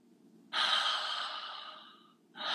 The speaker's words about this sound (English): And so basic thing, like taking 3 deep belly breaths.